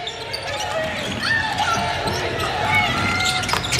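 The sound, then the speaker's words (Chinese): Basketball dribbled up the court during a game involving France: repeated bounces on the hardwood beneath a commentator's steady voice and a busy arena murmur. “莱拉拉康运球到前场”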